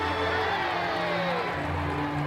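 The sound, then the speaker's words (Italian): A crowd cheers for Winston Churchill, a dense, continuous roar of many voices with whoops, over a steady low hum. “C'è solo una cosa che posso dirvi ora. Tre urrà per Winston Churchill!”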